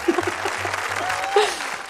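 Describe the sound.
An audience applauds during a stand-up comedy set with a brief, light burst of clapping, and a voice is heard briefly over it.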